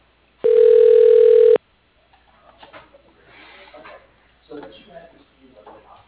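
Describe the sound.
One loud, steady electronic telephone ring of about a second sounds as a call is connected to voicemail, followed by faint indistinct sounds.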